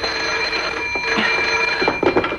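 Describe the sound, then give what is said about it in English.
Telephone ringing on a bedside table, a bright, high bell tone that repeats in short rattling bursts, fairly loud and alone, with no voices. “It's only the phone”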